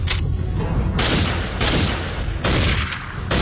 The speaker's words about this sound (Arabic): في اطلاق نار